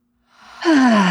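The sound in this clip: One deep breath during a stress-relief tapping exercise: a soft, airy intake that builds into a strong, sustained sighing exhale, alone with no talk.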